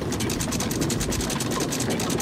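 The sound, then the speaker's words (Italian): Ship's anchor being raised, a ratchet sound effect: rapid, evenly spaced mechanical clicking over a broad, steady rumble. “Quindi accendiamo i motori, solleviamo le ancore,”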